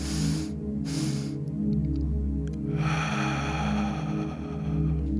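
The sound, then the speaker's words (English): Rhythmic breathing exercise: two quick inward breaths followed by a long, slow exhale out through the mouth, airy and soft over a low steady hum. “and then slowly out through the mouth. So that's two breaths inward”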